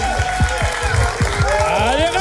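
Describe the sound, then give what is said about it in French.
Audience applause for a performer's second-to-last show: steady, dense clapping mixed with cheering voices and rhythmic low thumps, loud and continuous throughout. “C'est donc l'avant-dernière fois que vous pouvez l'applaudir. Alors ouais. Donnez tout ce que vous avez.”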